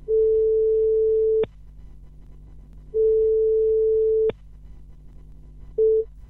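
Telephone line tone heard while placing a phone call: a steady, pure electronic tone sounds in two long bursts separated by a pause, then a short third burst begins. No one speaks.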